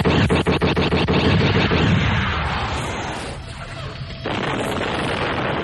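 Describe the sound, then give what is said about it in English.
A spacecraft hit by laser fire explodes: a loud series of rapid crackling bursts gives way to a sustained, rumbling roar that dips briefly before swelling again. “The skip detonated, hiding Mara's X-Wing from sight for a moment.”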